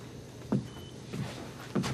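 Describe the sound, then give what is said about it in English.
A man's footsteps as he steps away in a darkened bedroom: three soft, low, muffled thuds spaced roughly evenly over a steady quiet hiss. “He pulls a lap blanket from the foot of her bed and rolls it up in his arms, then steps away.”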